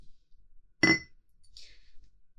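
Glasses clink together in a toast: one bright, ringing glass clink stands out in a quiet moment, followed by a faint high shimmer.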